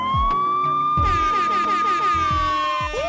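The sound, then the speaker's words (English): Police siren blaring a loud, sustained high tone rich in harmonics, holding nearly steady for the whole stretch, with low rhythmic thumps pulsing underneath. “That's the sound of the police.”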